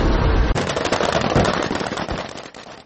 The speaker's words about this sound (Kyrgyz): Негизи ушундай атышуулар коштолгон инсценировка менен кошо ошол ЭСКР антитеррор 2018 машыгууларынын алкагында Балыкчы шаарында